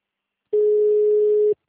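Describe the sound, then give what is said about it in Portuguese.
A single steady telephone tone while a call is being transferred, one even, medium-pitched beep of about a second heard alone between silences. “Aguarde, estamos transferindo a sua ligação.”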